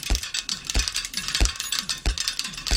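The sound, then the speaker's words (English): Bicycle parts ratchet and click in a sound-art piece built like a Rube Goldberg machine. A rhythmic mechanical pattern repeats, with four heavy low thumps at regular intervals and rattling, gear-like clicking between them. “You've probably never heard bicycles making sounds like these.”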